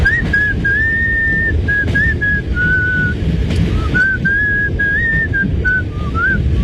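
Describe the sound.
A train driver whistles happily in his cab, a clear, cheerful melody of held and sliding notes carried steadily over a constant low rumble.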